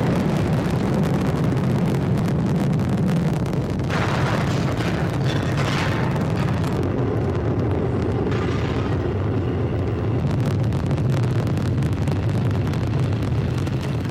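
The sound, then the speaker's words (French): Deep rumbling roar of the American space shuttle Atlantis lifting off on its final launch in July 2011. The rocket thunder is loud, dense and continuous, with no break or voices throughout. “Voilà le son de cette navette spatiale américaine Atlantis, son décollage le 8 juillet 2011.”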